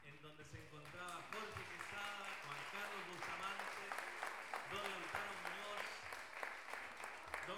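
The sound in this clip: Faint applause for the organizing board at a contrapunto tournament, with steady crowd clapping while a man keeps talking over it.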